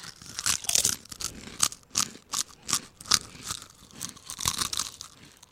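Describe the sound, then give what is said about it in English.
Crunching and chewing of kettle-cooked New York barbecue potato chips, heard as many crisp, irregular bites and crackles with no talk. “That's a good barbecue chip.”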